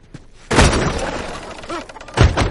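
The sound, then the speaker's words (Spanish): Gunshot blasting a door lock open: a sudden loud burst that breaks into a sustained crashing, rumbling roar, followed by a second heavy hit near the end. “Dispara la cerradura.”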